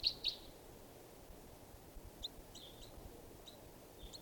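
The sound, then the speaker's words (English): A juvenile bird from a flock calling: two short, high chirps at the start, then a scattering of fainter high chirps over a steady low background rumble. “this is one of the birds. It's a juvenile.”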